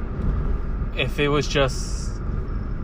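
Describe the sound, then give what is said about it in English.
A truck passes outside an open window, giving a low, steady rumble throughout while a voice briefly talks over it. “sorry, that was a truck, I'm gonna close my window so you guys can hear me”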